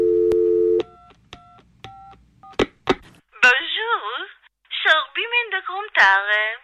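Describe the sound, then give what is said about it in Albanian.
A telephone dial tone, then several short key-press tones and clicks as a number is dialled, followed by a voice speaking. “Do t'i marr njëherë në telefon që të më japin ndonjë informacion.”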